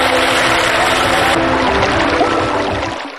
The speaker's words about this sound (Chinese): 让水不断地往进灌，大概在喉咙这个位置，稳住身形。